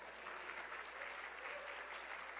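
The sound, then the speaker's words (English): Audience applause greets news of a recent marriage proposal, a steady, dense wash of many hands clapping that holds an even level throughout without distinct breaks. “But imagine, yes, you can clap, that's good, yeah.”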